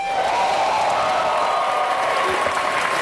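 A crowd cheers and applauds at a PAX West 2016 gaming convention panel for a South Park video game, with dense, steady clapping and scattered whoops that run unbroken through the whole moment.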